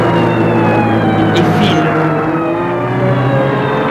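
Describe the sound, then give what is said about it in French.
Car engine accelerating as the driver floors it during a chase with a police car right behind, a loud, continuous motor drone with a strong harmonic whine running throughout. “Gilles appuie sur l'accélérateur.”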